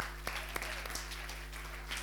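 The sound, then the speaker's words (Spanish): Faint applause from a gathered group during a talk about passion and faith, a soft, steady patter of clapping with a few sharper claps over a low, constant hum. “Vamos a darle un aplauso porque muy bien.”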